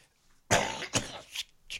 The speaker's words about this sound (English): Oh, excuse me. Excuse me for that. Sorry, just had to cough.